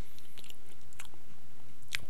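Faint chewing and biting on a room-temperature snack that tastes like sherbet or ice cream, with a few soft crunchy clicks spread across the short stretch and no talking.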